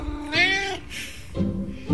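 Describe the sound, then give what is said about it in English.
A domestic cat meows for its dinner at feeding time, giving a few insistent meows in quick succession. They are fairly faint, some rising and others flatter and shorter, and no one talks over them. “if he meows at me persistently, he usually gets it a bit sooner.”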